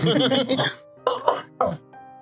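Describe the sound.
Harsh coughing from someone who breathed in liquor too early while drinking, so it went to the lungs. A voiced sound comes first, followed by two abrupt, rough coughing bursts.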